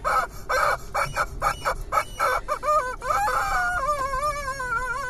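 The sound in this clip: A squeezed rubber chicken toy squawks in a quick run of short, honking squeaks, then lets out one long, wavering, high squawk. No voices.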